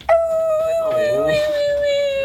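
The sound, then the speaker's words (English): A person imitates the howl of a lonely dog left at home: one sustained, tonal howl that starts abruptly, holds a steady pitch, then sags slightly toward the end. It is loud and heard alone. “And I was like, what are you howling for?”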